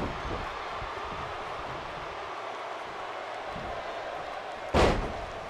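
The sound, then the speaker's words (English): A wrestler's body slam on a wrestling ring: one sharp, loud thud near the end stands out over a steady, noisy crowd murmur. “Kyle O'Reilly with a beautiful slam. Followed by a kick to the head.”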